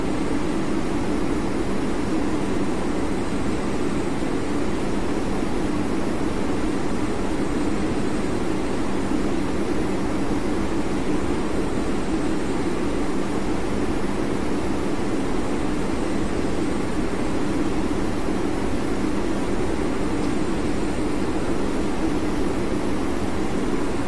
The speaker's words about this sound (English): Ladies and gentlemen, this is the first officer. I have turned off the fasten seatbelt sign and you are free to move about the aircraft.